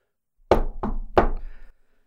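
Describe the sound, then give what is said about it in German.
Three firm knocks on a door land in quick succession, the middle one slightly softer. Nothing else is heard before or after. “Unfalle klopft an der Tür an”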